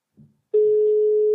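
A telephone sounds while a call is being placed: a short, soft click, then a steady mid-pitched tone that starts abruptly and holds loud and unbroken to the end.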